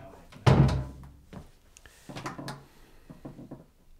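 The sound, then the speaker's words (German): A door is shut with one heavy wooden thunk, followed by a few fainter knocks and rustles. “Mach mal die Tür zu.”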